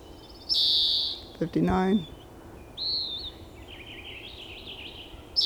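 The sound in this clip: A recorded bird call: a high sustained whistled note, a lower harmonic call, then a short high note and a warbling trill, with a sharp note at the end.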